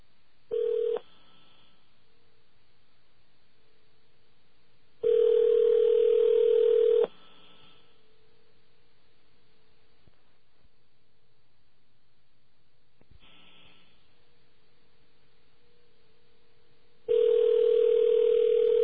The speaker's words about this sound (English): AT&T, please dial the number you are calling, or 0 for an operator, now.